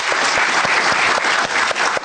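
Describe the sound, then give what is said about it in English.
Applause from a small studio group, a steady dense patter of hand claps with sharper individual claps standing out, loud and continuous for about two seconds with no voices over it. “Clap, clap, clap.”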